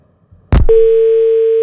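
A telephone tone sounds after a phone-in call drops: a sharp click, then a steady, unbroken mid-pitched tone that holds loud and alone to the end.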